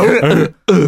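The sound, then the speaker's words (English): A harbor seal gives a rough, throaty coughing call in two harsh, hoarse bursts split by a brief gap, much like someone clearing a clogged throat. “The other one that sounds like someone who's got like a real bad cough, like a Gollum cough, is like. Yeah, there's like a harbor seal.”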